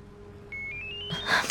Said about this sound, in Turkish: Telefonun çalıyor.